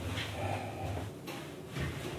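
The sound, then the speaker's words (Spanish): Doors being opened on the lower level of a building housing a studio: a few soft sliding swishes and dull knocks over steady background noise. “Abriendo puertas.”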